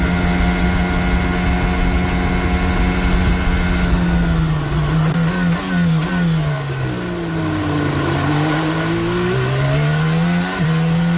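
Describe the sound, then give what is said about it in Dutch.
Onboard engine note of a Formula 1 car at the 2022 Bahrain Grand Prix, running E10 ethanol-blend fuel. A loud, continuous high-pitched whine holds steady, then its pitch dips and climbs repeatedly. “We zijn aan boord bij de Nederlander Max Verstappen.”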